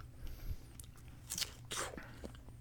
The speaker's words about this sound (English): I'm giving it a bite here. See if we can get the crunch on the. Oh, that was a nice pop. You guys hearing this?